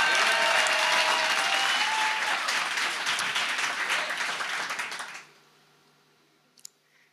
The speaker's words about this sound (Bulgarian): Сега може да ръкопляскате. Ръкопляскайте, като че ще успея да завърша това нещо днес.